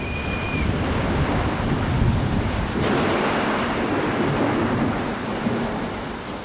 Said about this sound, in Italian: La pioggia inizia a battere fitta su mille ombrelli aperti, sugli impermeabili, sui giubbotti.